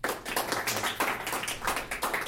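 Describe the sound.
An audience applauds to welcome a guest speaker before an academic talk on election forensics. Many hands clap in a dense, steady patter that holds for the whole stretch.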